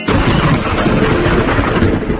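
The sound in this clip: Thunderstorm sound effect: a loud, steady, unbroken roar of heavy rain mixed with deep rumbling thunder, filling the whole clip with dense noise and no voices.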